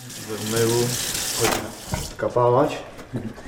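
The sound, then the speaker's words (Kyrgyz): Water runs from a tap while dishes are washed after a meal, a steady rushing under voices that talk over it. “Тамак ичкен идишти жууп коёюн деп жатам.”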